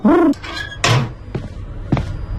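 An apartment door on the third floor of a building with a broken lift is opened, giving a brief creak and a few hollow clunks and knocks, some louder and some fainter.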